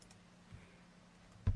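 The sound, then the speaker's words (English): Typing on a computer keyboard produces a few faint, scattered keystroke clicks over a quiet background, with one sharper, louder click near the end. “If I get it typed here right.”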